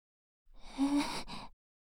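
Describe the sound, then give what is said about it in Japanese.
A single breath drawn in and let out, soft and unhurried, lasting about a second, with a faint voiced edge in the middle and silence before and after. “そのまま喋らずに、息を吸う音？吐く音を聞かせて、欲しい。”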